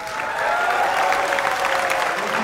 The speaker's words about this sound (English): Let's get the applause because...